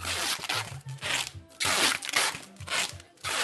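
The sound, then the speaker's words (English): Packing tape pulled from a roll to seal giant boxes of T-shirts and jeans at a Guangzhou clothing wholesale mall: several long, loud rasping screeches, one pull after another. “Packing tape. From morning well into night, men pack hundreds of T-shirts or shoes or jeans into giant boxes. Then out comes the tape.”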